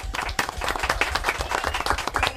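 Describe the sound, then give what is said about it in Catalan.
Lively applause for a contestant's correct answer on a quiz, a short burst of dense, crisp hand claps at an even level from start to finish. “Un aplaudiment, molt bé.”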